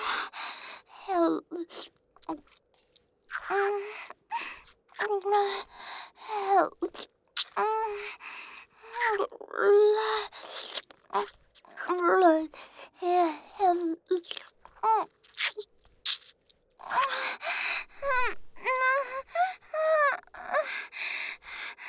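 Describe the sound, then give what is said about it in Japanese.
Crying from a person, heard as many short, wavering voiced sobs broken by breathy gasps and moans, rising and falling in pitch across an uneven, halting rhythm. “どうしたの？泣いてるの？かわいいのね。”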